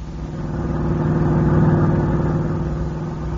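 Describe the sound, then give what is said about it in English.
A car engine hums steadily as the vehicle drives into a ranch, swelling gradually louder toward the middle and then easing off a little, alone without voices. “As we pick them up, they're just driving into the ranch.”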